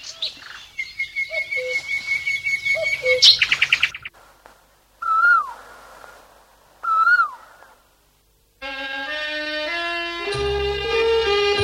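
Birds chirp as they fly home to their nests: a fast rhythmic run of bright repeated calls, then two separate swooping calls with quiet between, followed by a sustained layered tonal sound.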